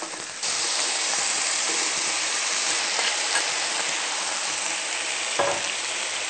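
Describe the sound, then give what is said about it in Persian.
Potatoes hit hot oil for a samosa filling and burst into a loud, steady sizzle. The hiss starts abruptly and then holds evenly, with small crackles, and no talk over it. “اول کچالو را داخل روغن ریخته”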